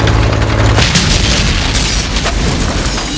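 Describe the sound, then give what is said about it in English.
A tank hit by a bazooka round explodes in a war film: a loud, deep boom bursts out and rolls into a sustained, roaring rumble that fills the whole clip. “He runs out, kneels, and aims. The tank bursts into flames.”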